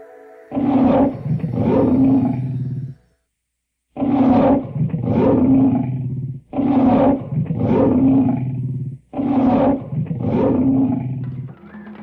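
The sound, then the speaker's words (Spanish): A tiger roars in deep, loud bursts: four long growling roars, each built from several throaty pulses, separated by short gaps, with no talk. “Y en ese mismo momento, apareció el tigre floral.”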